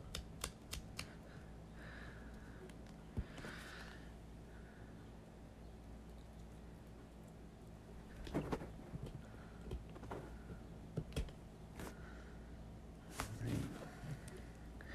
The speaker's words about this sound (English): That ripping sound is never good. When you're pulling off a price tag.